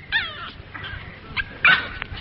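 A dog whimpers in a radio drama, giving a few high, thin whines. The last whine near the end is the loudest.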